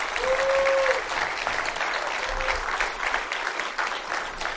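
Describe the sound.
An audience applauds an honoree receiving an AWANA Citation Award, a steady, dense clapping that holds at even loudness throughout.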